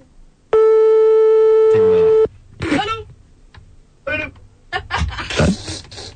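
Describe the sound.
A telephone call tone sounds as a single steady, buzzy tone held for under two seconds, with people speaking right after it.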